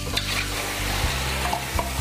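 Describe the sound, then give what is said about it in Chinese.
Steady, dense sizzling of meat stir-fried in a smoking-hot wok just after rice wine and Shaoxing wine are poured in, broken by a few sharp scrapes and clinks of the turning utensil, loud and continuous with no talking. “趁现在再让我们的肉汁把那个烟味把它吸收回来，所以我们赶快把它翻炒一下。”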